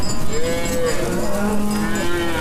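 Cattle mooing from a herders' herd on lush summer grassland, long low drawn-out calls that overlap and sustain steadily throughout, with no talk.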